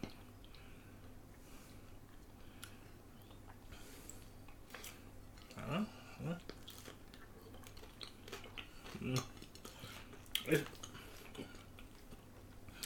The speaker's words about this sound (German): Ich muss jetzt auf die Gefahr hin, mir den Gaumen komplett zu verbrennen. Einfach weiter essen.